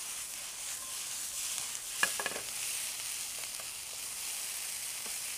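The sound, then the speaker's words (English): Stock and seasonings are stirred together into a paste for rubbing into pockets in a roast. A steady soft hiss of wet stirring runs throughout, with a few small clicks of the utensil near the middle. “I'm going to finish it off with a little stock, really kind of make a paste out of the seasonings, which will be a lot easier to get into those pockets on the roast.”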